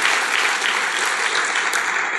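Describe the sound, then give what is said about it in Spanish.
A church audience applauds during a Spanish-language sermon, producing a bright, dense, unbroken patter of many clapping hands that stays loud and level from start to finish. “aplaudamos a Dios.”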